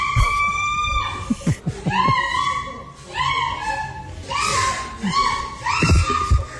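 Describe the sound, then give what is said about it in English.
A woman shrieks loudly and repeatedly during sex, giving several sharp, high-pitched cries in bursts that rise and then hold before breaking off. “She's shrieking.”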